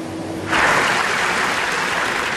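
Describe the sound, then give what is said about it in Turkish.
Applause from a film festival audience in Venice breaks out abruptly after a short quiet hum, then continues as dense, steady, loud clapping to the end. “Venedik'te 25 dakika alkışlandı.”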